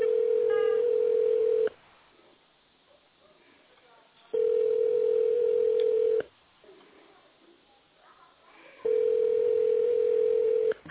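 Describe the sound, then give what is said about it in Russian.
A telephone ringback tone plays while the caller waits for an answer: three steady, mid-pitched beeps, each lasting nearly two seconds. Longer gaps of faint line noise separate them. “Продолжаю дозвон. Абонент еще не ответил.”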